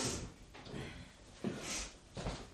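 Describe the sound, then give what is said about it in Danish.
A door being opened or closed, heard as a few faint, soft thuds and brushing scrapes spread across a couple of seconds, quiet and without voices. “så er det godt at have lyden af en dør”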